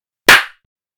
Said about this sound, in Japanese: 手を叩くとすっきり目が覚めて、これまでの暗示もすべて消えてなくなります。